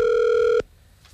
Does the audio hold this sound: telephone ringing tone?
yes